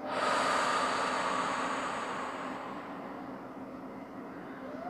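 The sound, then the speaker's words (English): Slow, deep exhale during a guided breathing exercise: a soft, airy breath-out that starts at full strength and gradually tapers away over several seconds. “And again, inhale. And exhale.”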